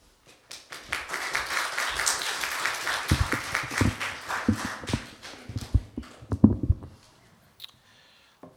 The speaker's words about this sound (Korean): 이제 나오실 때 많은 박수를 한번 환영해 주시기 바랍니다.